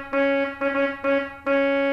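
A trumpet reed stop on a pipe organ plays four separate notes of the same pitch, each a bright, brassy, buzzy sustained tone. The notes are loud and steady, with brief gaps between them.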